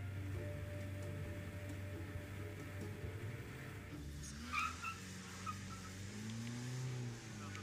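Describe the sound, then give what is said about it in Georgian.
Car engine climbing a steep road up a cloud-covered volcano: a faint, steady low drone over road noise, with the pitch wavering in the later seconds. “მადლობა ღმერთს, რომ ასეთი მანქანა მყავს. სხვა ტრანსპორტით აქ ვერ ამოვიდოდი.”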